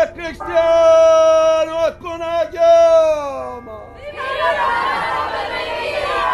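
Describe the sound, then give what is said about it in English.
Crowd sounds from the La Madonna del Lume festival parade at Saints Peter and Paul Church in North Beach, San Francisco. Sustained tonal notes give way to a broad, loud wash of crowd noise that lasts to the end. “we are at Saints Peter and Paul Church for the Festival of La Madonna del Lume, which is a festival that comes from Porticello, Sicily, and has happened here in San Francisco at Saints Peter and Paul and at Fisherman's Wharf the last 79 years.”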